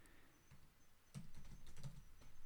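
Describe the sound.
Light computer keyboard typing, a few soft, irregular clicks, some in quick clusters, quiet throughout.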